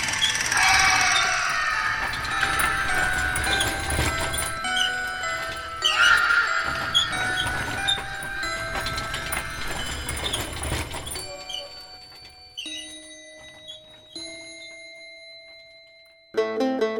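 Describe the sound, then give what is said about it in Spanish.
A horse-drawn cart passing at night: a horse whinnies over a dense, clattering layer for about eleven seconds. The sound then thins to faint sustained ringing tones before a brief loud burst at the end. “por las noches, y si pones mucha atención, todavía puedes escuchar a la carreta de la muerte.”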